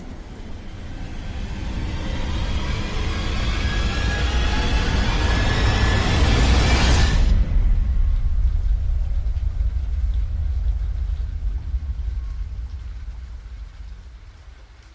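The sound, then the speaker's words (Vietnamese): Heavy rain pours at night, a broad steady hiss with a deep rolling rumble of thunder beneath it; the roar swells through the first half, its bright upper hiss cuts off abruptly midway, and the remaining rumble slowly fades. “Một tiếng sấm lớn vang lên giữa màn đêm mưa gió.”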